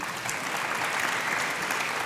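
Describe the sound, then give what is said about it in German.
A short burst of applause congratulates someone: soft, evenly textured clapping that stays quiet and steady throughout. “Ja, ist sehr cringe, dafür Applaus zu kriegen, aber okay, schön.”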